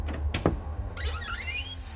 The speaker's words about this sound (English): I wonder if I should open this door or... Yeah, open it!